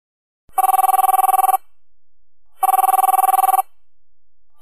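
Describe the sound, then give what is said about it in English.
Telephone ringing to set up a conference call: two long, even trilling rings separated by a pause, with a third ring just starting at the end. The rings are loud and high-pitched, with no talk. “Then I decided that I was going to do a conference call so that I now mix both of them together. I'm coming, let me call you.”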